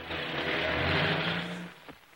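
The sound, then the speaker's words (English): A car drives off after dropping a passenger: a steady, rough engine drone with low rumble holds for over a second, then fades out near the end. “He drives on.”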